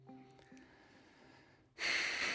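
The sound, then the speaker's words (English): A deep breath taken mid-conversation, a loud, airy rush of breath that starts abruptly after a quiet stretch and holds steady to the end. “that was a deep breath.”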